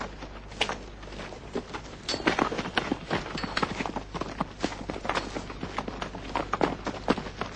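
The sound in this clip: Horses set off at a clip-clop, giving many hoofbeats in a quick, uneven rhythm. The hoofbeats start moderately and grow louder and denser after the first couple of seconds.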